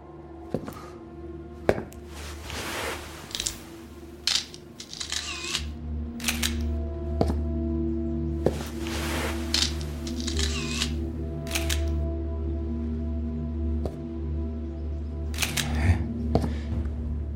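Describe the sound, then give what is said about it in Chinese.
Camera shutter clicks as photos are taken in an old classroom, many sharp snaps spread irregularly over a steady low hum, with no voices. “给我几分钟时间拍照，然后我们就能认出他们是谁了。”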